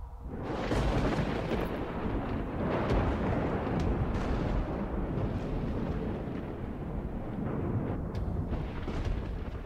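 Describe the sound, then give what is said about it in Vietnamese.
A loud thunderclap from a lightning bolt striking, a dense, sustained roar with crackling bursts that holds steady and heavy for nearly ten seconds, with no voices. “Đột nhiên, từ trên tầng không, một tia lôi điện đánh xuống đánh đùng một cái. Âm thanh vang lên đến chói cả tai.”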